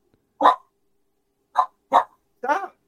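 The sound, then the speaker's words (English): An upset dog barking: four short, sharp barks at an uneven rhythm, loud and alone against silence, with the last bark a little longer and rougher. “Man, no wonder the dog upset.”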